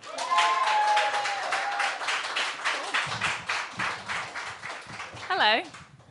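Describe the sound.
An audience applauds to welcome a poet on stage at a poetry reading event, with dense, steady clapping that fades toward the end. Voices sound over the start, and a cheer rings out near the close.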